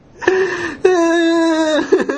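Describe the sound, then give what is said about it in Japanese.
A person crying with face lowered lets out two drawn-out, wavering whimpering wails at a steady pitch, followed by a few short breathy sobs. “めっちゃ泣いてるよ。”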